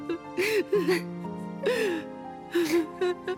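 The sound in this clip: A woman cries, with several separate bursts of breathy sobbing and wavering, whimpering voiced sounds between quieter pauses.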